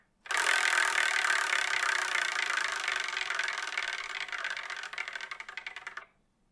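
A prize wheel spins with a dense, steady rattle of rapid clicks for about six seconds, the ticking thinning and softening toward the end before stopping abruptly.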